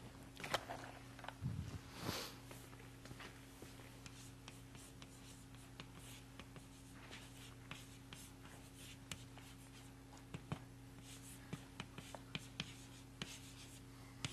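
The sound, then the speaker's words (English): Handwriting with pen on paper: many faint, quick scratchy strokes and small taps run steadily throughout over a low, constant electrical hum. “I'll write it down.”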